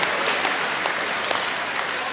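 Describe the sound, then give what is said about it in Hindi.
Audience applause for a centenary milestone: steady, dense clapping from a crowd, loud and even throughout without pause. “तो बहुत ही ज़ोरदार खुशी की ताली बजा के अपना उत्साह प्रकट करें।”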